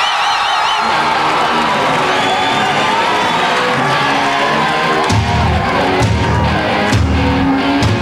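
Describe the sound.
A large crowd cheers, whoops and shouts for a rock band being introduced on stage, a loud, continuous roar that holds steady from start to finish.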